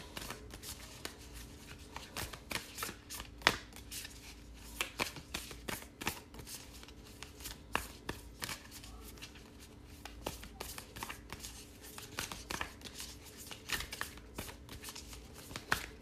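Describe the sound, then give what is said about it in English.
Shuffling a deck of animal oracle cards: a long run of quiet, crisp riffling and flicking with many small taps in irregular bursts. “So animal kin, let's get an animal kin oracle card and see what we've got happening here for Libra.”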